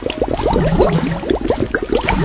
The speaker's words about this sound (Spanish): Es como estar viendo cómo hierve un puré de patatas.